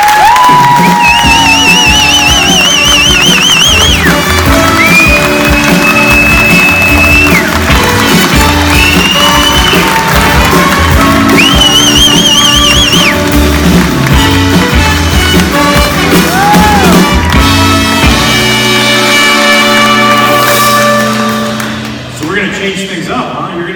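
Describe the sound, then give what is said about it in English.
A live-show audience cheers and whoops loudly to welcome a guest onstage, a dense, continuous roar with rising shouts that holds strongly before fading near the end. “Please put your hands together and welcome Daniel Swarkowski.”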